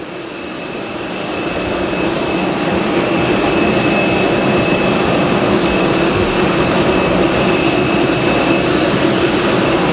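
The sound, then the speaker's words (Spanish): A jet airplane taxis down a runway for takeoff, its engines roaring loud and steady. The roar builds over the first couple of seconds, then holds at full strength with a thin, high whine running through it. “que recogerá de un momento a otro su escalerilla y comenzará a rodar por esa pista para despegar enseguida, en breve.”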